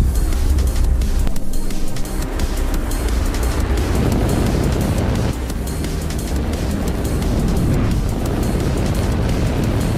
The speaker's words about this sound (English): Launch auto sequence 7, has started. 6, 5, 4, 3, 2, 1. Go for launch.